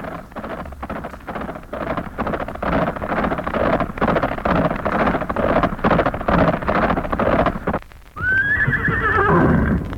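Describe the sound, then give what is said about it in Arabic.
A horse gallops under a rider, driven hard across the ground, its hoofbeats a dense, steady pounding that ends in a loud, high whinny. “لاح له فارس على جواد وهو ينهب به الأرض ويغريه على الركض ويتجه به إليه ويقبل عليه.”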